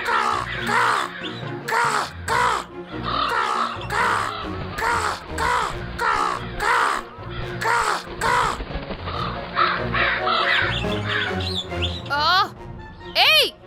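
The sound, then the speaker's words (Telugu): A crow caws repeatedly from a tree, its harsh calls coming in a steady rhythm amid a busy, constant backdrop of voices. “ఆ కాకి అక్కడ ఏం చేస్తుంది? హే, shoe shoe, నా చెట్టు మీద నుంచి వెళ్ళిపో వెళ్ళిపో.”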